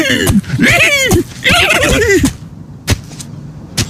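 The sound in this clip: A horse whinnies twice in long, quavering neighs of wavering, falling pitch, then a few sharp knocks sound against near silence.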